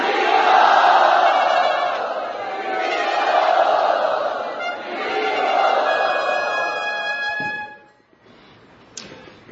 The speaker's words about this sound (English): Let us loudly welcome Astasakhi and Ekanath Prabhu to Radha Gopinath Temple.